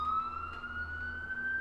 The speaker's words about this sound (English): now you guys can probably hear that siren on the street